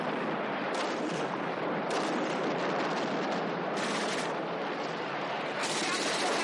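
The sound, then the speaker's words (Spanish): Sustained gunfire as a soldier leans out from the top and shoots at enemy soldiers in a war setting, a dense, continuous crackling roar with a few heavier bursts. “uno de sus compañeros asoma por la parte superior y comienza a disparar a los soldados.”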